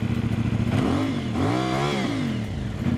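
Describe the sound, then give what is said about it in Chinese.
A motorcycle with a loud, illegally modified aftermarket exhaust revs hard, its deep, raspy engine note climbing and falling in pitch through two throttle blips over a steady rumbling idle, with no talking. “大家可以听到它这个排气的声音是非常的大。这种车辆在行驶在路上的时候，只要你轻微的一给油、一提速，”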